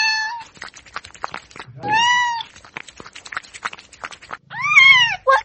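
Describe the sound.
A cat meowing, one about to be given milk: a few drawn-out, high, tonal meows separated by pauses filled with soft clicking and rustling, the later calls louder than the first.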